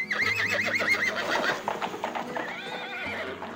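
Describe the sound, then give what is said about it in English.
A horse whinnies loudly with a shaky, wavering call as its hooves clip-clop underneath, carrying a king riding away from the city, with the hoofbeats continuing after the neigh fades. “The king rode from the city.”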